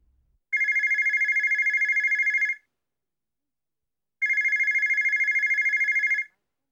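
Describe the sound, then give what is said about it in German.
A mobile phone rings in two long bursts of bright, pulsing electronic trill, each about two seconds, with silence between them, near a front door where people hide in a hedge. “Plötzlich klingelt ein Telefon.”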